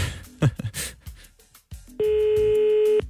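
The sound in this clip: A telephone rings on a call that goes unanswered, with no answering machine. After a few short, softer scattered sounds, a single steady mid-pitched ringing tone holds for about a second.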